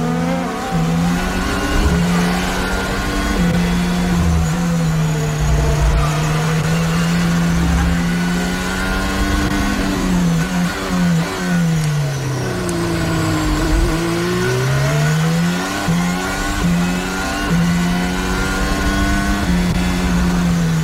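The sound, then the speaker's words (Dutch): A Ferrari Formula 1 car at full throttle during the 2022 Bahrain Grand Prix gives a loud, sustained, high engine whine. The pitch dips and climbs again partway through as the revs change. “Leclerc die op dit moment alles openzet bij die Ferrari”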